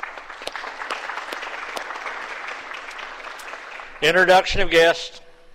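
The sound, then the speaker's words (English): Applause for a guest welcomed into a senate chamber: many hand claps form a dense, steady patter that runs for about four seconds, then a voice speaks briefly as it ends. “Let's give her a round of applause for her outstanding work as a civic service duty.”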